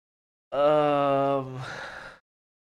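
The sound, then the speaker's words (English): A person groans once, a drawn-out voiced moan lasting under two seconds that turns breathier and weaker toward the end, heard on its own. “That is the groan sound you made right there is the exact same sound I made when I first turned my Xbox on and started playing that game.”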